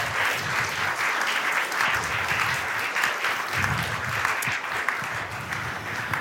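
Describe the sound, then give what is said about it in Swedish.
Audience applause welcoming guests onto the stage at a talk on heart research: steady, dense clapping from a crowd, continuous and fairly loud throughout, with no voices over it. “Och nu är det dags för mig att presentera dem och då ger ni dem en varm applåd såklart.”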